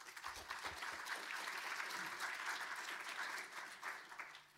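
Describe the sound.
An audience applauds to welcome a speaker before a talk on mapping Aboriginal language countries, a soft, steady wash of clapping that trails off at the end.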